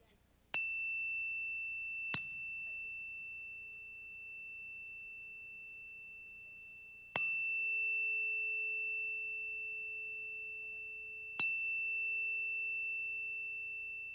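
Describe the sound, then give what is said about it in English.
A tuning fork is struck four times. Each sharp metallic tap gives way to a pure, steady high tone that rings on and slowly decays in an otherwise silent setting. “So I just want you to hear a tuning fork. There must be silence. There can be no other sound but the sound of the tuning fork.”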